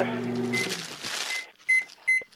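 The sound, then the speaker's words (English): Microwave oven keypad beeping: after a stretch of talk, two loud, short, high-pitched electronic beeps stand out clearly, with fainter beeps of the same tone under the voice. “Hold on, I'm typing something into the microwave.”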